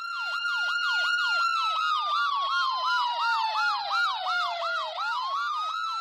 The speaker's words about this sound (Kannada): ambulance ಬರ್ತಾ